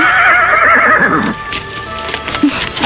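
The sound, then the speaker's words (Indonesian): A horse gives a loud, high, wavering whinny that fades after about a second, followed by quieter snorting and faint hoof clops. “Tapi bagaimana dengan kuda?”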